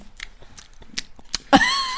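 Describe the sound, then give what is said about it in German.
Lips smack and kiss close to a microphone in a few wet, clicky pops, followed by a short voiced sound at the end. “Sollen wir ein bisschen knutschen, die letzten 4 Minuten? Ein bisschen das Mikro schmatzen.”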